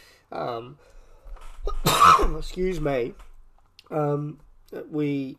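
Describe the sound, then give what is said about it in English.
A short, harsh cough after water went down the wrong way breaks in between stretches of a man's ordinary speech. “Excuse me, that water went down the wrong way.”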